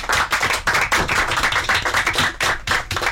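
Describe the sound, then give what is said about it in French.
An audience claps for a parish group taking part in an elimination round of a contest. The applause is loud, dense and continuous for the whole stretch, with no individual voices standing out. “Ils sont là, on va les acclamer très fort.”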